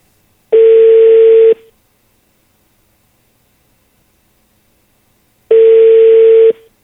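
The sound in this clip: Outgoing telephone call ringing, on a line that goes to voicemail. Two loud, steady buzzing ring tones last about a second each, with a long silence between them; no voices.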